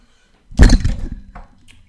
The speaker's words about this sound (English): The mic has just... The boom. Do I need to pause this? This is infuriating, guys.